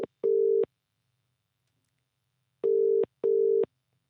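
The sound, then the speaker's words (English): Telephone line tones sound as a number is dialled for a call: three steady, mid-pitched beeps of equal length after a brief clipped one at the start. A long silent gap follows the first full beep. “Okay, have you got a number ready? Yes, all dialing right now.”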